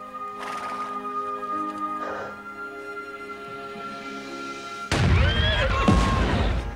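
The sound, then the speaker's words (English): An explosion bursts near horses: a sudden, heavy, loud blast cuts in late after a quieter sustained tonal stretch, and its rumbling noise continues to the end. “Explosions burst around the horses.”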